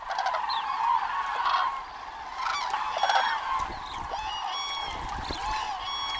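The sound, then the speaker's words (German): Common cranes calling as adult and young birds set off together at dawn, many overlapping honking, trumpeting calls sounding continuously throughout at a steady, fairly loud level, with no talking. “Kraniche sind Frühstarter. Noch vor Sonnenaufgang fliegen die ersten los und geben damit das Signal, dem alle anderen folgen.”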